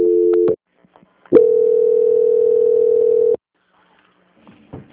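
Telephone line tones while a call is being transferred: a short steady tone, a brief gap, then a longer flat tone of about two seconds that cuts off into near silence with faint noise.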